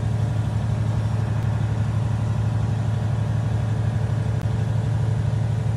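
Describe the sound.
Steady low engine drone of a vehicle driving through Wow Wow with the 2022 Canadian trucker convoy, a constant deep hum with an even rumble and no breaks.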